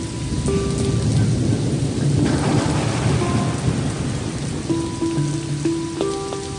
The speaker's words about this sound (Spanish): Me encanta el ruido del trueno.